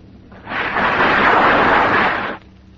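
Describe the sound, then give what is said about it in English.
A firing squad's rifle volley at an execution bursts out as one loud, broad roar that holds for about two seconds before cutting off, with quiet before and after. “Yes, sir. Squad! Fire!”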